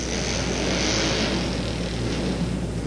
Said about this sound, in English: And 4 bikes coming out now.